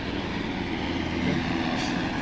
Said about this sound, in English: what is that? Oh, helicopter, yeah.